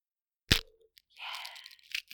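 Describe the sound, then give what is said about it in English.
A fortune cookie cracks open with one sharp snap, then a stretch of dry crinkling and rustling as the pieces are pulled apart, ending with a short crunch. “You didn't crack your cookie.”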